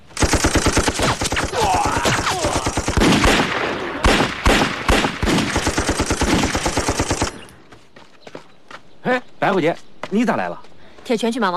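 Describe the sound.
Machine-gun strafing fire in a wartime battle scene: about seven seconds of loud, dense, rapid bursts, then scattered separate shots while voices cry and shout.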